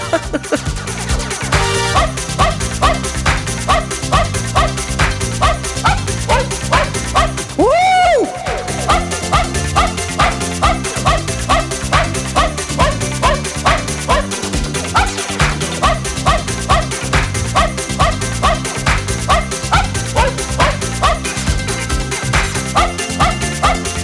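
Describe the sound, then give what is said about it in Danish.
A barking-dog Christmas tune is built from the yips of small dogs, repeated in a bouncy rhythm over a steady beat and synthetic tones. It stays loud throughout, with a brief gliding tone near the middle. “hvad nu hvis der er noget julemusik, der er lavet nogle søde små woofer, nogle søde små hunde? Hvad er det så?”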